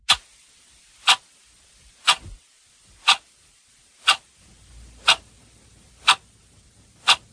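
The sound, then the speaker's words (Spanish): A clock ticks in the classic tick-tock manner, eight crisp, sharp clicks at an even pace of about one per second over near silence. “Y sí, es el clásico sonido tic-tac de un reloj, y suena esto en Poniendo las calles porque un reloj muy particular va a protagonizar los próximos minutos en este programa.”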